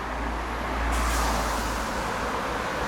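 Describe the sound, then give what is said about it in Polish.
Cars drive through standing water on a poorly drained city road, making a continuous loud swishing hiss over a low engine rumble, with no talk. “Słychać, jak samochody przejeżdżają po wodzie.”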